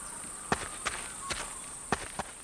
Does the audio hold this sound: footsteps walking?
yes